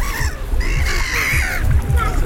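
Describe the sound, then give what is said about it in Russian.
Seagulls call on a sea shore early in the season, with no swimmers on the beach. Harsh, cawing cries repeat and overlap several times over an uneven low rumble. “Чайки тоже чувствуют себя пока здесь свободно, потому что купающихся нет. Им полное раздолье пока.”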